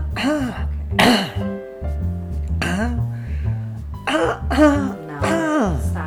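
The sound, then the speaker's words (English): A man clears phlegm from his throat in several raspy, voiced bursts of hacking and grunting, separated by short pauses. “I'm trying to get phlegm out of a very specific part of my throat”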